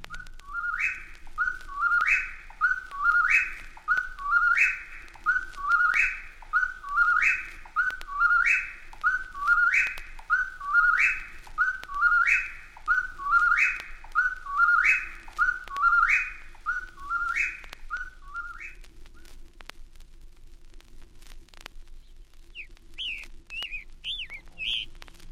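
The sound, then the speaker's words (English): A whippoorwill calls at night, repeating its whistled song many times in a steady, incessant rhythm. A few brief, higher chirps follow after the calling stops. “Through the night, the incessant calls of the whippoorwill can be heard from New Brunswick to northern Georgia.”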